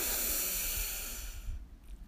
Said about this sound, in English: So let's do that. Breathe in.